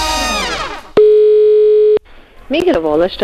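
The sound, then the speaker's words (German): A steady telephone dial tone sounds alone for about one second. It is a constant, unwavering pitched hum that starts and stops abruptly, with voices talking just before and after it. “Zeit zum Telefonieren. Wenn er anruft, wird es gefährlich. Gefährlich lustig. Das ist das Telefon bei Radio Zürichsee.”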